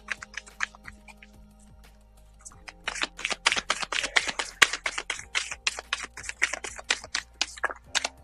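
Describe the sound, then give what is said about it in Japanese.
Oracle cards being drawn from a deck: a few scattered soft taps, then a quick run of crisp clicking flicks and snaps as the cards are handled. The flicks are fairly faint and no one talks. “ちょっとオラクルカードの方を引いていきましょうね。”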